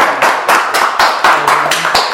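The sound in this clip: Hands clap in a quick, even rhythm, about eight loud, crisp claps in two seconds, given as applause in a group talk session, with no voices over them.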